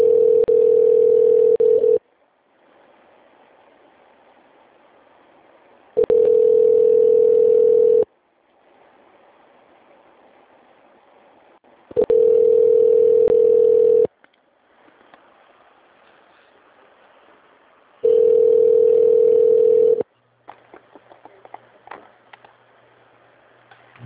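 Connecting ringback tone on a phone line after an extension is dialed: four steady, mid-pitched two-second tones separated by longer quiet gaps with faint line hiss, then a low hum and scattered clicks at the end.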